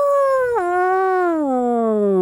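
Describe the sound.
A human voice imitates a wolf cub's howl: one sustained, tonal cry filling the whole clip. Its pitch steps down sharply early on, then glides slowly lower toward the end, with no other sounds.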